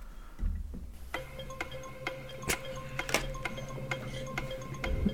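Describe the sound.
A countdown clock ticks during a word puzzle game, many faint, evenly spaced clicks repeating steadily with no talk.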